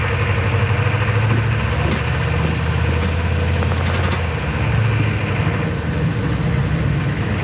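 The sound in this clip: A car engine drones loudly as the vehicle drives across an exposed road in a conflict zone, a continuous low rumble holding steady throughout with no voices over it.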